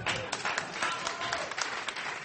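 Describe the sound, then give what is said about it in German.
Audience applause, a dense, steady patter of many hands clapping that stays fairly faint and even throughout with no talk. “Ja, und da jetzt mal klatschen an der Stelle, bitte.”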